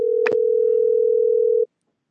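Telephone dial tone while calling back a caller whose line dropped, a steady, loud continuous hum of one pitch with a faint click early on, lasting under two seconds before cutting off sharply into silence.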